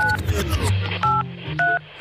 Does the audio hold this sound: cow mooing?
no